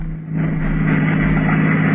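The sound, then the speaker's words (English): Steady engine drone of a car being driven at night: a constant low hum with broad rumbling noise that swells slightly just after the start and then holds even. “I always enjoyed driving. It was a nice night for it.”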